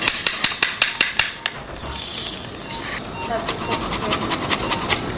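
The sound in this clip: A surgeon fits an implant stem into the tubular part of a thigh bone with sharp, regular metallic hammer blows. A run of evenly spaced strikes pauses, then resumes and quickens, with talk mixed in.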